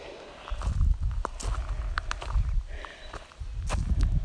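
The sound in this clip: Footsteps of a person walking up a hill, a steady series of heavy, dull steps with a regular rhythm, fairly loud and heard alone with no talk.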